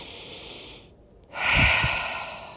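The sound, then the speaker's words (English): A single breath is taken: after a short lull, a soft airy intake swells and then gradually eases off, with no speech. “So the next time you feel yourself resisting what is, take a breath.”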